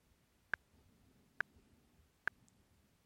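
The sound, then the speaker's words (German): Metronome ticking in Reaper recording software at a slow rock ballad tempo: four sharp, evenly spaced clicks over a faint, quiet background. “Reaper hat ein Metronom eingebaut. Das mache ich mit Steuerung Shift M bzw. Apfel Shift M an. Metronom an. Und drücke mal auf Start.”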